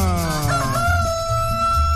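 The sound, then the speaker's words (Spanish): A rooster crows in one long, drawn-out call whose tone settles into a sustained high note, set over a low, thumping pulse. “¡Suéltale gallo a Cartagena!”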